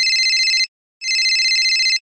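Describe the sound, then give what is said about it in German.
A mobile phone ringtone plays in two bursts, a short one and then, after a brief gap, a longer one. Each is a bright, rapidly pulsing high electronic tone, clear and alone. “Sein Handy klingelt.”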